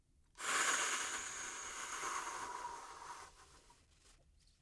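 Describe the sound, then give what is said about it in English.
A slow exhale through pursed lips, as if through a straw, makes a steady airy hiss. It starts sharply, holds for about three seconds, then tapers away. “and out through the mouth, slowly, like you're exhaling through a straw.”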